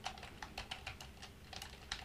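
Key presses on a keyboard as braille is typed with the ring finger: many quick, crisp plastic clicks in an uneven rhythm, with no voices.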